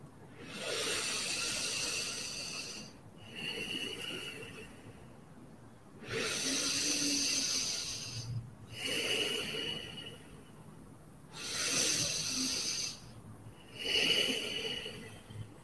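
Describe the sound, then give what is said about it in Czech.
Slow, deep breaths in and out during a guided breathing exercise: long airy inhales and exhales follow one another in a steady, unhurried rhythm, each lasting a couple of seconds, with brief pauses between and no talk. “Ještě třikrát opakujeme nádech a výdech.”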